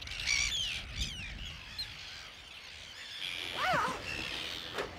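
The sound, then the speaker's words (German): Arctic terns call from a breeding colony where an estuary flows out to sea: harsh, rasping cries rise and fall over a low background noise, with a few louder bursts. “Wir gehen jetzt durch die Brutkolonie von den Küstenseeschwalben.”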